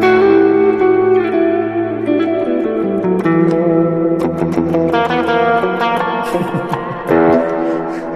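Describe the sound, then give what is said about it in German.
Clean electric guitar through a Roland Jazz Chorus amp, shimmering with chorus and reverb: loud sustained chords ring out first, then give way to a run of picked notes and strums. “Und Amp, den wir haben, ist ein Amp, den wir vorhin tatsächlich auch schon bei einem von euch hatten. Jazz Chorus. Den Roland Jazz Chorus. Ja. Roland. Clean Sound, einfach unschlagbar, der Jazz Chorus.”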